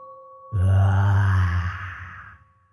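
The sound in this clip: Deep, drawn-out groaning like many voices moaning together, swelling in abruptly and droning low for nearly two seconds before fading, preceded by a faint steady tone.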